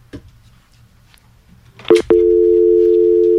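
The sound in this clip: A telephone tone on a call that fails to connect: a couple of sharp clicks, then a loud, steady single-pitched tone that holds without a break to the end.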